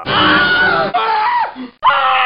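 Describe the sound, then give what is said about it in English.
A comedy-show audience screaming on request, loud sustained massed screams in about three bursts separated by brief breaks. “Scream if you want the comedy to go faster.”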